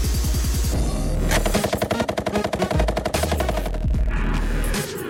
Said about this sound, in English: They're shooting HIMAR missiles to Iraq.